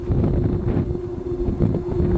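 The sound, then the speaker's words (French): Wind blowing through a giant singing, ringing tree sculpture gives a steady low humming tone, held throughout over gusty, rushing wind noise. “On l'appelle « The Singing Ringing Tree », l'arbre qui chante et qui sonne. C'est évidemment juste le vent.”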